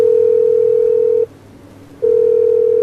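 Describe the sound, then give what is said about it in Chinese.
Telephone ringback tone for a call that goes unanswered: a loud, steady single-pitch electronic tone breaks off for one short pause, then resumes. “嘿，不接电话啊？怎么不接电话、啊？ 再试一次。”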